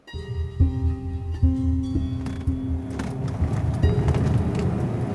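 A car driving along, heard as a steady low engine drone with a whine whose pitch shifts a few times. The sound stays at a moderate level throughout.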